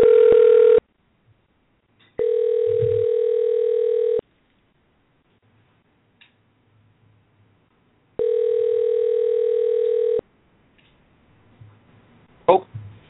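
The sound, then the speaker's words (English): Telephone line tone while a call is dialed out, a steady electronic tone sounding in about two-second bursts separated by long silent gaps, three bursts in all, followed by faint rustling at the end. “we are dialing Mike live on the air right now”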